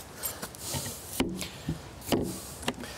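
A door is pulled shut after the dogs have gone inside the house for the evening, giving a few soft knocks and clunks, with two sharper thumps standing out in an otherwise quiet stretch.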